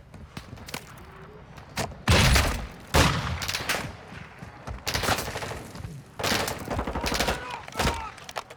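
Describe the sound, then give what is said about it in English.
Video game gunfire comes in loud bursts of rapid shots, several heavy volleys separated by quieter stretches of lighter, scattered firing. “Shot at Behind us, a murder. Taking effective fire! Right, shoot.”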